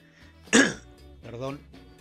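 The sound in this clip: A smoker with an irritated throat clears it with a harsh, rasping burst, then gives a second, softer voiced clearing cough that is lower and more drawn out.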